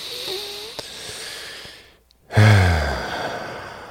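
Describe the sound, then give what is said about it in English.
A deep breath, taken in and let out, ends in a loud, breathy, sigh-like exhale with a low tone after a short silence, then fades out. “Let's all take a deep breath in before moving to the next section.”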